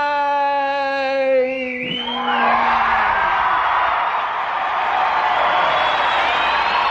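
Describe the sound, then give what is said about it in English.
A crowd cheers, whoops and yells wildly after a performance. A held musical note dies away as a loud, steady roar of cheering rises and carries on to the end. “And the crowd went wild.”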